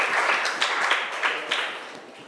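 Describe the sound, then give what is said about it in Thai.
Children in a classroom applauding a group of classmates, a lively patter of many hands with several sharper clap accents, tapering off near the end. “เอาปรบมือให้กลุ่มหนึ่ง”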